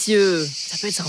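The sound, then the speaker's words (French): Cicadas chirping in a steady, high, shimmering drone, the sound of a summer in Provence in the south of France, running continuously beneath a voice talking. “ce petit bruit que vous entendez, les petites cigales, elles arrivent à Bruxelles”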